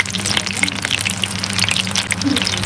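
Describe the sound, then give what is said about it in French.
Food cooking in a pan, a steady dense crackle and sizzle of many tiny pops over a low, constant rumble. “Donc, je vous laisse en compagnie de cette petite cuisson qui est en cours.”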